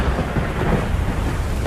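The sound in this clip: Thunder from lightning: a continuous, deep, loud rumble with a rain-like hiss over it, holding steady throughout.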